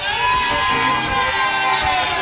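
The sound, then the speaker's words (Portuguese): A live show audience shouts and cheers loudly and continuously, a dense wall of whoops, yells and excited voices sustained at an even level throughout. “Agora a gente quer ouvir um gritão, sabe por quê? Estamos ao vivo. Eu e Patrick Levi vai botar o microfone pra vocês. Quem tá feliz, dá um gritão aí!”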